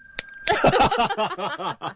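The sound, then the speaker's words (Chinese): Small bell struck once, giving a bright, clear ring with high overtones that keeps sounding faintly beneath voices that follow right after. “要不要打个敲个铃铛呢？ 我来敲”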